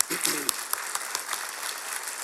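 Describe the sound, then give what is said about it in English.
Applause from a church audience honouring its pastor, a steady wash of many hands clapping that holds at an even level, with a brief voice at the very start. “So please join me this morning to give you a hand of applause”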